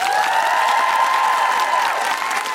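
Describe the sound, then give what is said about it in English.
Audience applause for a guest at a live show: loud, steady clapping mixed with sustained high cheers and whoops, dipping slightly near the end. “A big round of applause to the wonderful Dr. Anne-Marie Imafidon”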